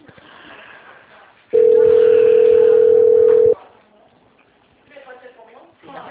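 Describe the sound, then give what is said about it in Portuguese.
A steady, loud telephone dial tone hums at a single pitch for about two seconds as a call to city hall is placed. Talking is heard before it, and brief voices follow. “Tô ligando lá na prefeitura agora.”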